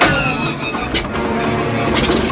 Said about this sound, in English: The plane takes a couple tries to get started, and the sound of the first engine failure for Jock